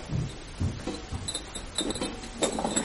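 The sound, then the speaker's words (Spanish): A glass liquor bottle set down on a kitchen table gives a few faint clinks and light knocks of glass against the tabletop, with brief ringing tones between them. “Deja la botella en la mesa.”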